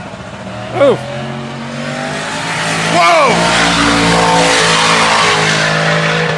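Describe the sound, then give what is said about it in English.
Engine roar from a Jeep Grand Cherokee SRT8 racing a pro stock car, with two sweeping revs near the start before a loud, sustained roar takes over. A voice exclaims over the noise. “That was a Jeep Grand Cherokee SRT8 up against like a full-on like pro stock.”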